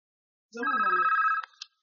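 A telephone rings once with a bright, warbling electronic burst of about a second, followed by a couple of short clicks and then silence.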